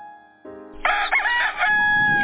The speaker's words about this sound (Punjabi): ਐਨ ਉਸ ਵੇਲੇ ਕੁੱਕੜ ਬਾਂਗ ਦਿੰਦਾ ਆ।